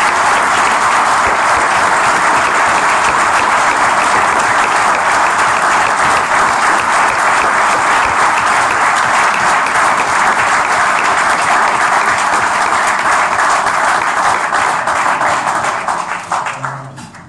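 Loud, steady applause from an audience, a dense wash of clapping hands that holds for about seventeen seconds before tapering off at the very end.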